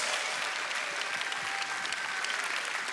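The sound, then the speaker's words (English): Audience applause welcoming a lead pastor onto the stage at a church: a dense, steady wash of many hands clapping that holds at an even level for the full three seconds. “Would you put your hands together and welcome lead pastor Michael Mulliken?”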